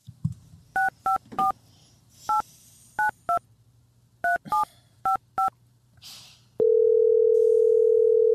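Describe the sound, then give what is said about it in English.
Ten crisp touch-tone beeps of a telephone being dialed, in uneven groups, then a loud steady phone tone that holds to the end. “All right, I'm dialing up Hayes.”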